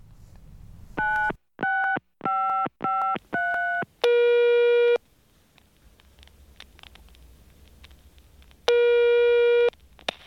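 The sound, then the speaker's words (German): An outgoing telephone call: five short dialing beeps in quick succession, then two long, steady ringback tones separated by a few seconds of silence. “Willst du gerade anrufen? Klar.”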